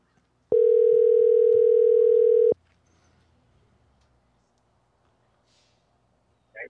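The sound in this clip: Telephone dial tone heard while placing a call: a loud, steady, unbroken hum lasting about two seconds, then cutting off abruptly into near silence.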